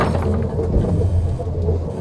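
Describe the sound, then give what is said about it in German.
Continuous heavy rumble of a runaway train gathering speed, a loud, steady low roar with dense mechanical clatter and no talk. “Wie gesagt, der Zug lässt sich nicht anhalten.”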